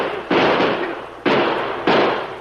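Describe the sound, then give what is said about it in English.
Gunshots fired by a group of men at a rider fleeing after a bank robbery: three sharp, loud blasts about a second apart, each cracking out and then tailing off in a rough rumble. “Stop him. He must have robbed the bank. Sure. Probably killed the banker, too. Shoot at him, boys.”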